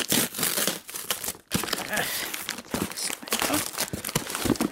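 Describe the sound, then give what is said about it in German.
Crinkling and tearing of glitter wrapping paper as an elaborately wrapped gift parcel with a big bow is opened: irregular papery bursts, fairly quiet, with a brief pause partway through. “Wer schickt mir denn ein Paket? Komisch, da steht gar kein Absender drauf. Ich mach's mal auf.”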